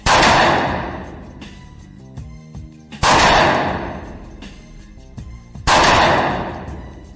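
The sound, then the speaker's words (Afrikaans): Three sharp handgun shots from target shooting at a shooting range, fired at 15-metre targets. Each shot is a loud, abrupt bang with a long fading tail, spaced roughly three seconds apart. “Daar is teiken mannetjies hier, so ons gaan punte skiet.”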